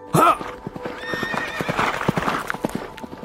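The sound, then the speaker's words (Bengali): A horse whinnies sharply at the start, then its hooves pound in a quick, uneven gallop of many clip-clopping beats that continue to the end. “Philip ঘোড়া ছুটিয়ে দিল।”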